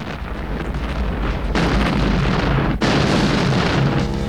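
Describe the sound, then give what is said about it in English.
A chemical plant explodes in fireballs: a continuous roaring rumble of blasts, with a couple of fresh booming bursts breaking through partway in and the roar holding loud to the end. “The whole plant erupts in fireballs of orange flame.”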